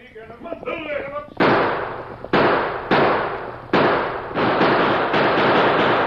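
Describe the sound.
Gunfire from a radio western drama set in Tombstone, a rapid run of several loud, sharp shots following a stretch of talking, each blast decaying briefly before the next.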